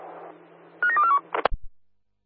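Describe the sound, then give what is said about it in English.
Touch-tone keypad beeps as a mobile phone number is dialed: a quick run of a few short electronic tones over a low steady hum, followed by a couple of sharp clicks. “Can you guys please call the Delta 6 mobile phone?”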